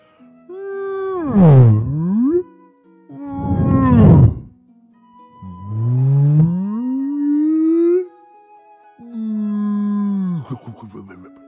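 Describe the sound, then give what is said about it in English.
Whale calls: four long, loud moaning cries heard alone, each sweeping in pitch, the first dipping then rising, others falling or climbing, the last holding steady before wavering. “Oh, I remember! Whales! That's right. The whales are the biggest animals that ever lived.”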